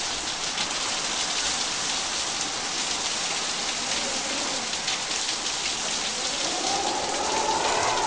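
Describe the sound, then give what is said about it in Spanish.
Steady rain falling, a dense, even hiss of drops striking a surface that stays constant throughout, with no voices. “¿Qué tiempo hace? Está lloviendo. ¿Qué tiempo hace, María? Está lloviendo también.”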